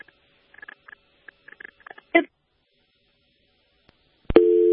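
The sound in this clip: Telephone busy tone after a dropped call: a steady electronic tone starts abruptly near the end, following a sharp click and a few faint crackles and taps.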